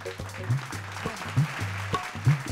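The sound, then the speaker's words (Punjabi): An audience applauds in honor of a music director, with loud bursts of clapping rising and falling in rough pulses over a steady low hum. “ਤਾਂ ਸਾਡੇ ਬਹੁਤ ਅੱਛੇ music director ਨੇ ਜੀ ਜਤਿੰਦਰ ਸ਼ਾਹ ਜੀ ਇੱਕ ਵਾਰ ਉਹਨਾਂ ਦੇ ਨਾਂ 'ਤੇ ਤਾੜੀ ਲਾ ਦਿਓ ਜੀ”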